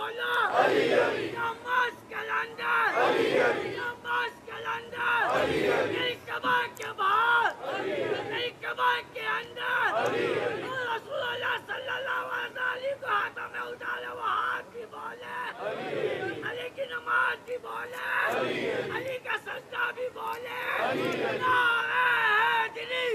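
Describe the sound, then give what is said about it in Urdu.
A religious gathering chants a slogan in repeated loud bursts, each swell of massed voices separated by short lulls, recurring every few seconds. “شکریہ. چلے آپ نے تبلیغ کے جملوں پہ نعرہ لگا دیا”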